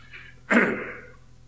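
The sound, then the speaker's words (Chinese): A single short cough from a lecturer with a sore throat: a sudden harsh burst that fades quickly, heard alone against a quiet background. “因为嗓子不好啊，而且很多咳嗽”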